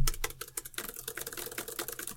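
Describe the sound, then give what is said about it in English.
Typing on a computer keyboard: many rapid, light key clicks in a quick, uneven patter, heard alone without talk. “Let me just run these through the computer.”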